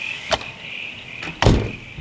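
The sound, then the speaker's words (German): A door being shut, heard as a few sharp knocks and a heavier thud near the end, over a steady high whine that runs through the whole clip. “Lass die Tür lieber zumachen.”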